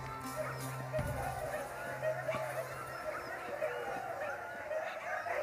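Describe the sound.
Siberian huskies bark, yip and whimper before a sled ride on a snowy day, a restless, busy chorus of dog calls over steady background noise.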